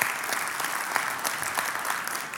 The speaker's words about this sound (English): And you can clap for that, because that's actually really pretty exciting.